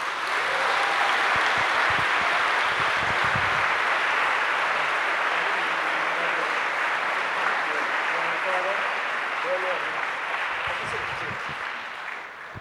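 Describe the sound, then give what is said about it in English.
Sustained audience applause as Cal Newport is welcomed onto the stage at a live event in D.C.; loud, dense clapping holds steady for about twelve seconds, then tapers near the end as voices emerge. “Ladies and gentlemen, please put your hands together for Cal Newport.”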